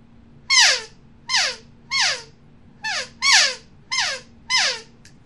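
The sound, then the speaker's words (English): Elk calf calls blown on an open reed call: seven short, high, squealing mews that bend downward in pitch, spaced at a steady rhythm about two-thirds of a second apart, loud and alone. “And right now I have one in my hand that makes calf sounds. And I'm going to make a calf sound real quick with that open reed.”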